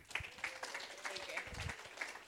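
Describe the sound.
An audience applauds to welcome a guest at a community centre, with scattered, uneven clapping from a modest group. A voice talks over the clapping.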